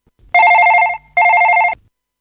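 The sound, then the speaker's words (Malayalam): A telephone rings twice on an outgoing call. Each ring is a loud, rapidly pulsing electronic trill lasting a little over half a second, with a short gap between them. “നമുക്ക് അനിതയെ വിളിച്ചു നോക്കാം.”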